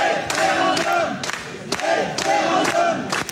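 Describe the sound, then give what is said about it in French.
About 350 residents shout in unison in a town hall during a meeting with data center developers. The loud, rhythmic chant repeats a single word again and again in forceful bursts. “vous entendez 350 habitants de Rantigny, dans l'Oise, crier référendum face aux promoteurs”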